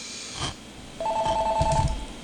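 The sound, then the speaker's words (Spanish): A telephone rings as a call comes in: one steady, mid-pitched electronic ring lasting about a second, with a soft knock just before it and no voices. “Ok, tengo una llamada, déjame coger esta llamada.”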